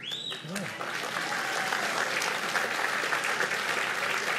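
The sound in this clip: A large crowd applauds in a tent at a university ceremony launching a veterinary medicine school; after a brief voice at the start, dense clapping swells and then holds at a steady, full level.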